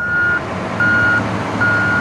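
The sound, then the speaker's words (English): A vehicle at a construction site gives three evenly spaced, high, steady reversing beeps over a low engine rumble. “This is not the idyllic scene that I was expecting. It's more like a construction site for a shopping mall.”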